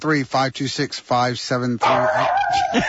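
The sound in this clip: A dog barks in a quick, loud series of short yelping barks, ending with a higher whine.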